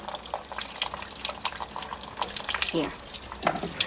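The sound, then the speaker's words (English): Water sprays from a sink sprayer in a shabby 1990s New York apartment, a broken, splashing rush heard under people talking. “like one of those things, the sink sprayer.”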